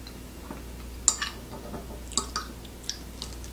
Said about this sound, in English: Let's start mashing and mixing.